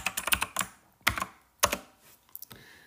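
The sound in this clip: Typing on a computer keyboard: quiet, irregular bursts of clicking keystrokes, with short clusters of taps broken by brief pauses.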